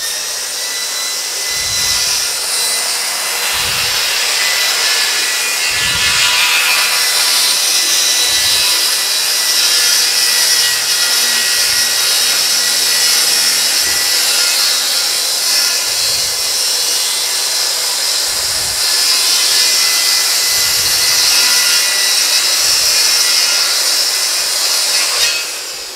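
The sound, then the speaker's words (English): A saw blade cuts a piece in half along a straight edge, giving a loud, continuous rasping whir that runs without pause. Soft, regular low thumps sit underneath, and no one speaks. “Again, I'm going to use a straight edge. I have it so that the blade should cut this right in half.”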